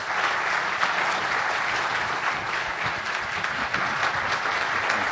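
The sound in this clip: Audience applause welcomes a lecturer at a special bicentennial lecture: dense, even clapping that holds at a steady, fairly loud level for about five seconds without rising or fading.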